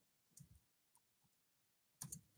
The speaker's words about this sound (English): You're glitching. You're typing something. Oh, am I? Sorry. I was using another tab to search something up.